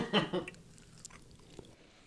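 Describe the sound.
Snacks are bitten and chewed, with a couple of louder crunchy bites at the start giving way to quieter, softer chewing.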